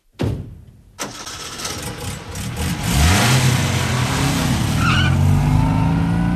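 An early motor car engine cranking into life and driving off, starting with a loud rough catch and sputter, then settling into a growling engine note that climbs in pitch as it pulls away.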